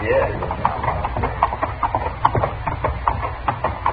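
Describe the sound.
Horses' hooves clip-clopping as riders move on horseback, with many steady, evenly spaced hoof beats in a walking rhythm.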